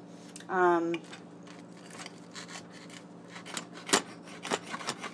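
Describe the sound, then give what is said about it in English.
Crisp crunching cuts slice through a warm toasted quesadilla with a crispy shell, with many short scraping crackles scattered across the stretch after a brief vocal sound at the start. “So now I'm going to cut it in the traditional quesadilla cutting way.”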